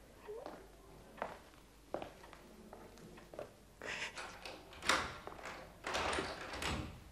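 A door is closed and locked in a furnished house, with a series of irregular wooden clunks, knocks and rattles, some louder thuds toward the end, and soft footsteps between them.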